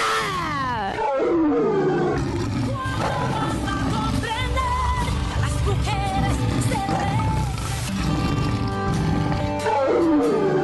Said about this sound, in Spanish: Mujeres y niñas, somos unas leonas. ¡Saquen su rugido!